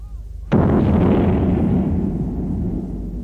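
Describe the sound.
A single cannon shot fired after the gun is loaded. It opens with a sudden, sharp report, then a heavy low rumble slowly decays for several seconds, with no voices over it.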